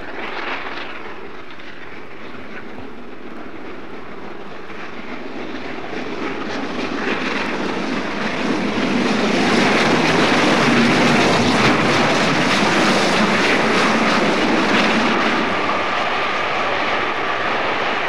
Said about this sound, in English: you can hear the locomotive now running past Elstree at considerable speed.